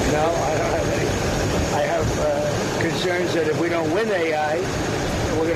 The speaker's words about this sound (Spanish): No se escucha bien por el sonido del avión